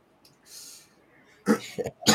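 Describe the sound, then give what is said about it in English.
A few harsh coughs from someone choking on something: loud, broad bursts in quick succession near the end, after a soft, breathy hiss earlier on. “Excuse me, I'm still choking on things.”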